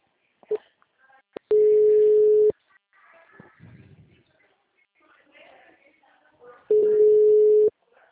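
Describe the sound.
Steady telephone line tone after a dropped call: two long, even, mid-pitched tone bursts about five seconds apart, each lasting roughly a second, with people talking quietly in the gap between them.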